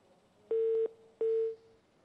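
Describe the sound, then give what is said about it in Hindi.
Dropped-call tone on a radio call-in phone line: two steady mid-pitched beeps, each about a third of a second long and separated by a short gap, heard alone over faint line hiss. “एक call drop हो गई, हम फिर सवालों के जवाब दें।”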